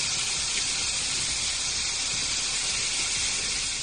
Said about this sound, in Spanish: Este era el sonido de esa tormenta.